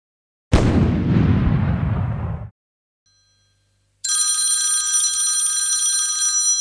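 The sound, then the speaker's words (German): A telephone rings for an incoming call with a steady, high electronic tone to the end. Before it comes a loud, booming blast lasting about two seconds, then a short silence. “Oh, der Bürgermeister ruft an.”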